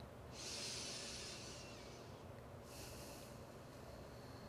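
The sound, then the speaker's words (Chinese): A deep breath during guided meditation, heard as two faint, soft airy rushes of breath separated by a short pause, very quiet with no talking. “好，我们结束最后一回合的深呼吸，”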